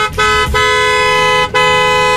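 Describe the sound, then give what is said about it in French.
A car horn honks loudly in a traffic jam, a sustained bright blast broken by a few brief gaps. “je pense que c'est le bruit d'un klaxon en plein embouteillage.”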